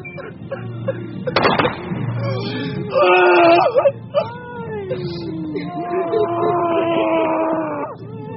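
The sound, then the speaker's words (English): Relatives wail at a military funeral in Ukraine as bodies are lowered into the ground: loud, drawn-out, wavering cries rise and fall, with several overlapping sustained wails and a sharper burst midway. “Relatives wail.”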